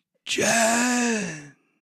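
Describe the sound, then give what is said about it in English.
A person voices the drawn-out last gasp of a dying creature in a tabletop role-playing game. One breathy, groaning exhale lasts over a second, holding steady and then sinking slightly in pitch before it cuts off. “As Mango landed on this creature, you do hear kind of a last gasp come from it”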